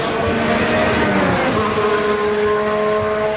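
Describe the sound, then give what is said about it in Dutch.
A race car drives a lap, not at full race speed. Its engine gives a steady, droning tone with layered harmonics that holds throughout, with a slight shift in pitch partway through. “Dan breekt deze ronde redelijk af. Dit was niet op volle race snelheid, durf ik wel te zeggen.”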